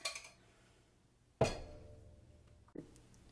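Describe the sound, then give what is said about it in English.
Spoon clinking against glass while a cocktail with thick syrup is stirred: three short, faint chimes spaced apart, each ringing briefly before fading. “But we're gonna stir it. We're gonna stir in that syrup.”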